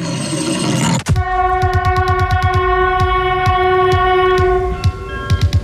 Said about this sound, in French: Attention, le premier TGV 607 en provenance de Paris est annoncé.